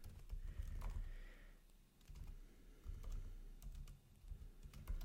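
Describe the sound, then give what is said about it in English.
Typing notes on a computer keyboard: a quiet, steady run of many key clicks in uneven bursts with brief pauses, with no voices. “I have a computer before me, and I'm just gonna write it down in the note of what I'm gonna be speaking about later.”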